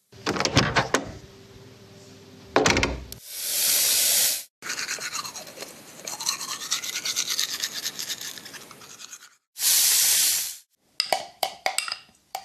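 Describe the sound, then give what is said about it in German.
Teeth brushing and getting dressed: several loud, harsh scrubbing bursts and rustling passages with short gaps between them, and no voices. “So, mit Zähneputzen und Anziehen bin ich jetzt fertig.”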